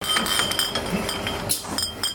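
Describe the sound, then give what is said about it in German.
Returnable glass deposit bottles clink on a bottling line filling organic oat drink, with many small, irregular chinks over a steady mechanical hum. “Hier wird Hafermilch abgefüllt. Halt, Haferdrink, so heißt es hier offiziell. Und genauer, hier wird Bio-Haferdrink in Mehrwegpfandflaschen gefüllt.”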